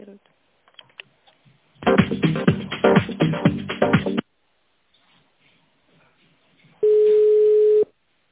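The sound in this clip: A telephone line tone sounds while a call is being transferred: one steady, mid-pitched tone lasting about a second, coming after a couple of seconds of busy, clattering noise.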